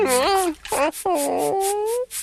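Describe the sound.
A puppy whimpers while being bathed, giving several loud, high whines. Some are drawn out and hold a level pitch, and others drop off, with short breaks between them.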